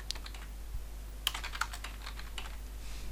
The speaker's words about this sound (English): I'm going to type in North.